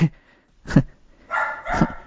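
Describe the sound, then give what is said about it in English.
A pet dog barks in the background, letting out a few sharp, rough barks in uneven bursts with short gaps, moderately loud. “And our dog is going berserk in the background, so yeah, can't back out of the shed while he's going berserk.”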